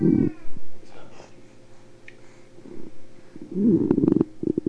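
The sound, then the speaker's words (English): A cat that was outside and wanting to come in meows, one short cry at the start and a longer, louder, wavering meow near the end, over a steady low hum. “That was the cat.”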